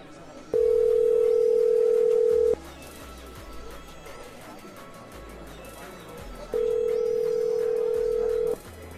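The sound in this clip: An old dialing machine places a telephone call. Two long, steady ringing tones of equal pitch, each lasting about two seconds and separated by a longer pause, sound over a constant noisy hiss on the line.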